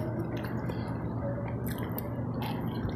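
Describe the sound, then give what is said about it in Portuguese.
Someone chews through a lunch that includes mashed potato with skins, making continuous moist, squishy chewing noise with a few brief sharper bursts. “Eu tô comendo aqui meu almoço.”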